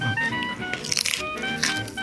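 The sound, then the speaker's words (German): Crisp crunches of someone biting and chewing a raw carrot, a quiet cluster of crunches midway over a soft tonal background. “Ich esse gerade die Möhre.”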